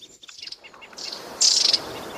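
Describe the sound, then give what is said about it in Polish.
Coal tit chirping at a winter bird feeder: a string of thin, high chirps, building to a brisk, louder burst of rapid notes midway, over faint background hiss with no voices. “Zobaczcie, tu jest sikorka i to sikorka sosnówka, bo z tyłu ma taką jakby łysinkę.”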